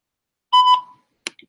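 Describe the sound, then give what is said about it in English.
A single short electronic beep signalling the start of a voicemail recording, mid-pitched and clean, followed by a brief faint click against silence. “Please right leave now your message for 90859. Let's leave your voicemail. This is the 10th voicemail.”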